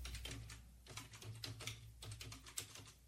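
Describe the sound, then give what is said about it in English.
Typing on a computer keyboard: a continuous, faint stream of many light, irregular keystroke clicks that keeps varying in pace, with no voices. “I'm trying to type and pay attention at the same time.”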